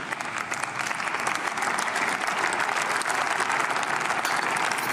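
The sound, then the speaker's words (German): Audience applause during a political speech on online crime and reporting duties, a dense, steady wash of many hands clapping that holds at an even, loud level for the whole stretch with no talk over it. “Bloß Applaus.”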